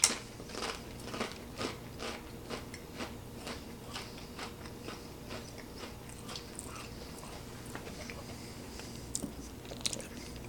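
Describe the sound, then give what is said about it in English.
Biting into and chewing rubbery luncheon loaf with congealed fat: many soft, crisp, sticky bite and chew clicks in an uneven rhythm, fairly faint, with no talking. “Here we go. Luncheon loaf. 3, 2, 1, taste test.”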